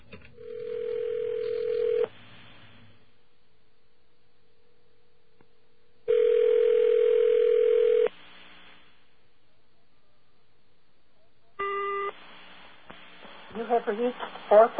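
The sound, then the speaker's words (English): A telephone number is dialed directly, with a special authorization code entered: a steady tone for about two seconds, a long gap, a second long steady tone, a brief burst of tones, then a voice begins speaking. “instead of dialing O plus this number, we're just going to dial the number direct. Let's see if we can talk to this risque person. Whoops. Got to enter my special authorization code for this one.”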